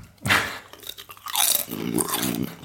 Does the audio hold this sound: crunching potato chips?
yes